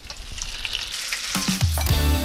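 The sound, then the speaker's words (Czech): Potato-and-quark dough pockets fry in hot lard in a pan, a dense, crackling sizzle that runs throughout and grows louder and busier in the second half, with no voices. “Sádlo máme přehráté a zarestujeme do zlatova. Ukrajuješ další kousek sádla, máš další pánev. My si ještě na sádle ty taštičky opečeme.”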